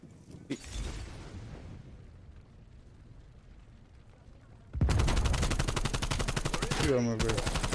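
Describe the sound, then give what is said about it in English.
Video game gunfire: a single bang near the start, then a loud, sustained burst of rapid, closely spaced automatic shots that begins partway through and runs to the end. “I just shot a guy so many times.”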